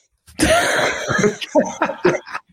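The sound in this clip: A person coughs and clears the throat in several harsh, uneven bursts, as if something is stuck there, with a raspy choking edge between the louder hacks.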